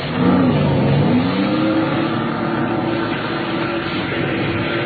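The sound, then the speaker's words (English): Speedboat powered by a 230-horsepower Johnson outboard accelerating: a loud engine roar climbs in pitch early on, then settles into a steady, droning whine. “That boat of Alex's is the fastest one of the lot. 230 horsepower Johnson.”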